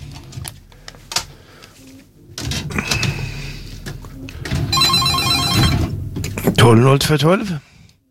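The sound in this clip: A telephone rings with a rapid, metallic trill among other busy, mixed sounds, including some warbling electronic chirps near the end.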